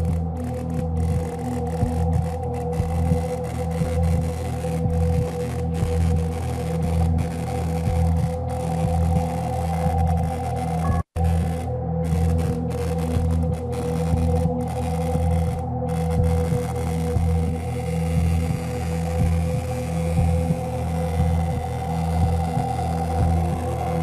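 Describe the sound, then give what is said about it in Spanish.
A Tesla coil running at about 200,000 volts gives off a steady electrical hum, a layered buzzing drone that stays unchanged throughout, broken by a single brief dropout midway. “Los rayos de Tesla, vamos a verlos de alguna forma. Así que procedemos, chicos. Vamos a encender la bobina. Lo hacemos poco a poco.”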